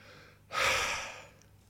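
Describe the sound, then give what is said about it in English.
A person, winded after a burst of enthusiastic talking, takes a single sharp, audible gasp of breath that swells and then trails off softly; it is fairly faint. “I need to catch my breath because I've jumped straight out of the gate very enthusiastically and I haven't taken a breath yet.”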